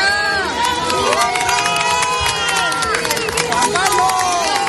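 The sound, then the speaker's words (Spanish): Hundreds of people gathered at the doors of a church for a wedding in Seville cheer loudly. The shouting and calling voices run unbroken in a dense, excited roar. “Precisamente a su llegada a la iglesia, don Juan Carlos ha sido recibido con aplausos por los centenares de personas que se agolpan a las puertas.”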